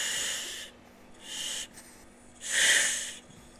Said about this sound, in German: jetzt hört ihr meine Atemzüge.